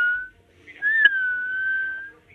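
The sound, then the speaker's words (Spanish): A theremin produces a whistle-like tone: a short steady note, a brief pause, then a longer sustained note that rises slightly, wavers, and settles before fading. “Esto parece un silbido, pero no. Ahí está el teremín.”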